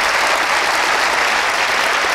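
Audience applause welcomes Dr. Yellen and Professor Siegel to the stage. Dense, loud clapping holds steady at one level from start to finish.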